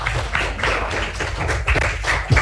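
Applause for a school principal at a school event: uneven, fairly loud clapping with pulsing swells and a few sharper thumps near the end.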